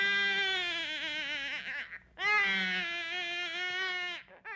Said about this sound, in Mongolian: Нилээд удасны дараа гэрийн баруун өмнө жүг нэлэх хүүхдийн чихран уйлах чимээ сонстож.